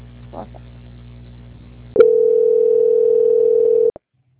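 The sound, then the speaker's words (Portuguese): Telephone line tone during a call transfer: a single steady, flat tone sounds for about two seconds, then cuts off abruptly. A faint low hum comes before it and silence follows. “Não desliga, mantenha em linha que eu vou transferir o contato, ok?”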